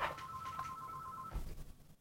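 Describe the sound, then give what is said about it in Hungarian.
A telephone rings with one steady, trilling electronic tone that holds for over a second and then cuts off. A low thump follows, and the whole sound is faint. “bocsánat, csak közben telefonunk van”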